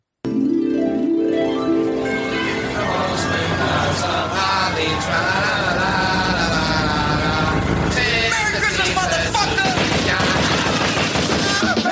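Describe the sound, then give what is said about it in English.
Gunfire from a drive-by shooting: dense, rapid automatic bursts run without pause for about twelve seconds, loud and crackling throughout. “Like that's a drive-by shooting.”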